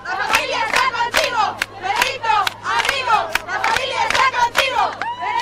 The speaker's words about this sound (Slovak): A na záver by sme vám radi sprostredkovali kúsok atmosféry, za akou mladí Španieli vítajú pápeža Benedikta XVI.